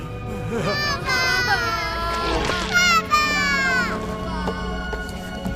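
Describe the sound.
A father cries in a tremulous, wavering voice, drawn-out strained wails rising and breaking off over a few seconds, with a constant low background noise underneath.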